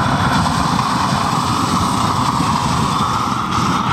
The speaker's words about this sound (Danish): Jeg tænker lige, at vi starter med at få skruet op for den der kæmpe store basse af en ukrudtsbrænder.